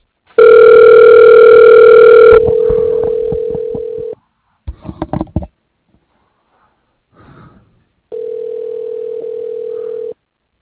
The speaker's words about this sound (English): Okay, dialing.